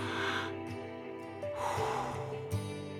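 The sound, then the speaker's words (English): A deep breath drawn and released during a guided prayer, audible as soft airy rushes over steady, sustained background music, with no talking. “Let's take another breath.”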